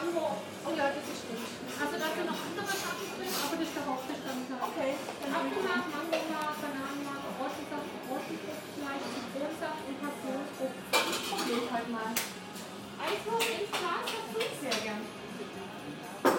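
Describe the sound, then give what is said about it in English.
Café ambience with dishes and cutlery clattering and clinking steadily, while people talk in the background throughout. “He has a cocoa. I have a vanilla cappuccino. It's very nice. And I will let you have a bit of ambience.”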